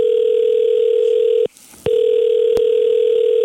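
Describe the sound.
A loud, steady telephone dial tone sounds while calling a local beautician. It is cut by a brief gap of about a third of a second, then resumes unchanged, with a single sharp click partway through.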